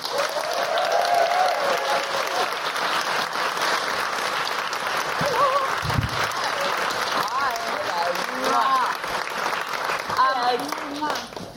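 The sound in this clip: An audience gives sustained applause for a comedian at a live show. Dense clapping continues for over ten seconds, with cheering voices rising through it.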